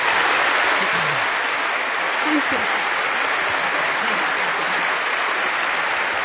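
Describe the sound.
An audience applauds to welcome a speaker at an evening event, with steady, dense clapping throughout and faint voices underneath.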